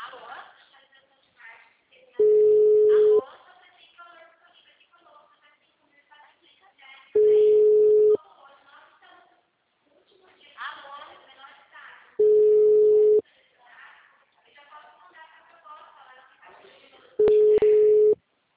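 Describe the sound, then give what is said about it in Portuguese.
Ringing on a telephone call that goes unanswered and is forwarded to voicemail: four steady, low, one-second tones spaced about five seconds apart, with a voice talking between them. “Chamada encaminhada para a caixa.”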